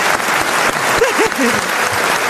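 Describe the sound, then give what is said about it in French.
An audience applauds a performer in a sustained burst of dense, loud clapping. Short fragments of voices rise through the middle of the clapping. “On peut applaudir Yann Folli.”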